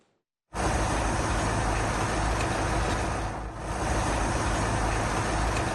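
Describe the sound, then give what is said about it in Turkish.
A heavy truck crosses a shaking concrete bridge with crumbling columns in Esenyurt, Istanbul. A loud, steady roar of road noise starts abruptly after a moment of quiet and holds throughout, with a brief dip midway. “Bak tır geçtiği zaman sallanıyor. Tır veya benzeri büyük araç geçince sallanıyor.”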